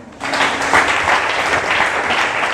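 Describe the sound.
A church audience breaks into applause during a worship service: dense, continuous clapping that swells after a brief quieter start and stays steady and loud.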